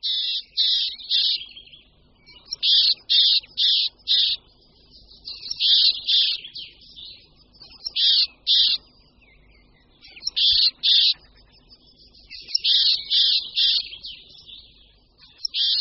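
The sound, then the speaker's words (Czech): Marsh tit alarm calls: many high, buzzy, drawn-out syllables delivered in quick bursts of two to four, with brief pauses between groups. The calls are fairly loud and sound alone against a quiet background. “Při rozrušení se síkora lužní ozývá hlasem, který za chvíli uslyšíme.”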